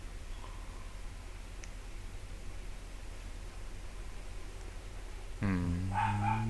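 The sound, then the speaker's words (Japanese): A dog barking outside the house: one drawn-out, harmonic bark or yelp bursts in near the end, after a long stretch of steady background hiss. “これ犬が鳴いてるのは外ですよね、 家外だった”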